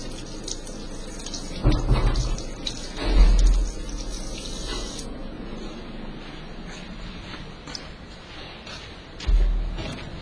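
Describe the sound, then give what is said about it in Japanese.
Running tap water splashes as hands are washed at a sink. The hiss stays steady, with a few louder splashes and bumps, and the flow changes partway through. “ちょっと手洗ってきますね。”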